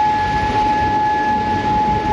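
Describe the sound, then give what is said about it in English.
Warning sirens in Bahrain hold a steady, unwavering tone with a fainter higher overtone. The sound runs continuously over a rough, noisy background, with no voices. “Those sirens in Bahrain warned of Iran's response to a night of US airstrikes.”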